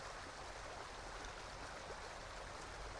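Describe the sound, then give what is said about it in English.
A stream burbling over rocks makes a faint, steady, even rush of flowing water with no breaks. “rivulets and currents as they shift and change, as they wrap around the rocks,”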